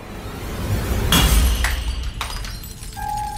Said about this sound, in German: Wie aus dem Nichts fällt in der Eingangshalle ein kleiner, mit Flüssigkeit gefüllter Glaskolben zu Boden und zerschellt.